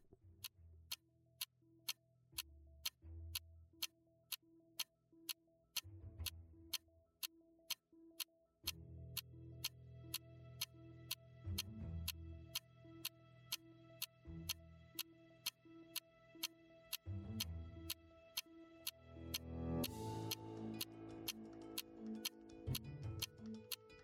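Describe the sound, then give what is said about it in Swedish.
A quiz show clock ticking: many sharp, evenly spaced ticks run at a steady pace over a low musical bed that swells louder toward the end. “Pannan funkar, klockan fortsätter rulla.”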